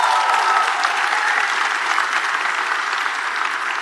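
An audience applauds the host team with steady, dense clapping that holds an even loudness from start to finish, with no voices standing out.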